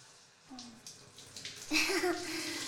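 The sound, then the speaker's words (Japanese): Running water rinsing dust and dirt from hair at the start of a hair wash: a faint, uneven trickle that swells partway through into a louder, steady gushing stream. “まずは、髪についたホコリとか汚れを軽く流していきまーす。”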